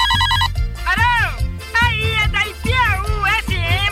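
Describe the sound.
A telephone rings as a listener calls in to Ipiaú FM, a brief warbling trill at the very start. It is followed by voices talking over a low backing track.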